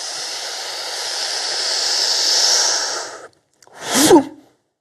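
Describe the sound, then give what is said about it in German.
A person breathing during a martial-arts breathing drill in horse stance with one hand forward: one long, loud, airy breath of about three seconds, a short silence, then a briefer, sharper breath. “Einatmen. Ausatmen.”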